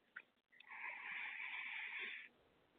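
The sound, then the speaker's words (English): A single deep inhale taken during a guided breathing exercise: a soft, airy rush that holds steady for nearly two seconds and then stops. It is faint and heard alone, with no talk. “So let's take a deep breath in and release. One more time. Deep breath in”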